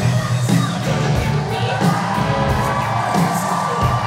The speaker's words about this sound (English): he takes the stage in his signature black hoodie. Lots of applause.